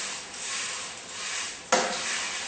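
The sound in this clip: Curry paste and coconut milk stir-frying in a pan give a steady, bright sizzle, with one sharp clink or scrape partway through before the sizzling carries on.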